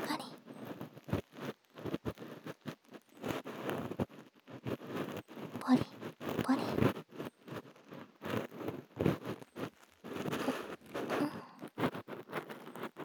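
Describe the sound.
Scratching and scraping of an ear pick cleaning deep inside an ear, heard as many short, dry, crackling bursts in an irregular rhythm with brief quiet gaps between them.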